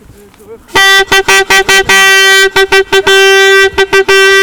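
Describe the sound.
A plastic vuvuzela horn blares at a noisy protest vigil outside a detention center, sounding many loud, buzzy blasts on one steady pitch, some held longer and others cut into rapid short bursts.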